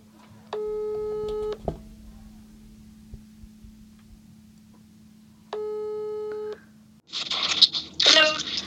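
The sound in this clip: A telephone ringback tone sounds while an outgoing call waits to be answered: two long, steady electronic tone bursts separated by a quiet pause, over a constant low hum on the line.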